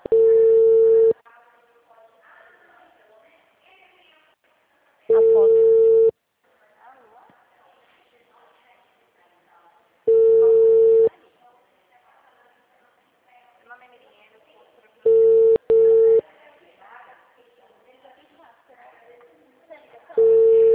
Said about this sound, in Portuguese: Ligando pro cliente aqui.